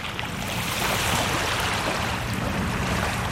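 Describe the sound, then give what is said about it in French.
Water of Lake Geneva laps against small shore pebbles in a steady, dense wash of hiss and trickle that holds an even loudness throughout, with no talk. “Et là, je me suis déplacé direction un lac. Le Léman, vous le connaissez aussi certainement. Attends, je vais le faire entendre. Je me pose bien sur les petits cailloux comme ça. Les petits cailloux qui sont là. Voilà. Et l'eau.”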